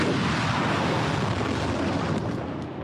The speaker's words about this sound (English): In footage released by Iran's military, rockets blast into the sky towards northern Israel.